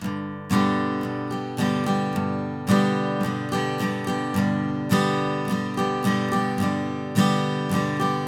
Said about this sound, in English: So slowed down, that sounds like this. I'll just do it on one chord so you can hear it nice and clear.